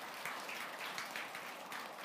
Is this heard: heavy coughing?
no